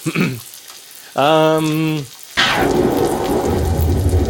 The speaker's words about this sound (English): There's water, there's thunder and lightning. It's all very cartoon.